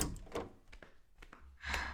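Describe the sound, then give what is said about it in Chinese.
Knocking on a door: a few soft, separate raps at an uneven pace, faint and with no voices over them. “周欣敲敲门。”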